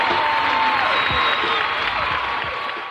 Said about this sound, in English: Now, put your hands together for the Shiznit.